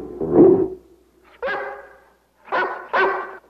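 A Great Dane gives four loud, deep barks. Two come spaced apart, then a pause, then two more close together.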